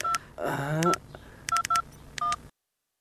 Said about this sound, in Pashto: ته صبر زه کور ته یو زنګ ووهم